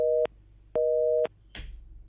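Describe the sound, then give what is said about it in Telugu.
Telephone busy signal on a call that fails to connect during a phone-in line: a steady, mid-pitched beeping tone in evenly spaced bursts, a short one then a longer one, followed by a brief click of line noise. “కొంతమందికి calls connect అవ్వడం లేదు.”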